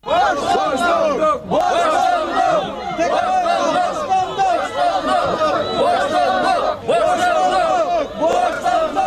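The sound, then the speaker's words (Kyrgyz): Protesters shout and chant at a rally in Bishkek, a crowd gathered outside the security service building demanding a jailed politician's release. The roar of many voices is loud and continuous, with brief dips between waves of shouting. “Бишкекте Өмүрбек Текебаевди колдоо митинг улантылды.”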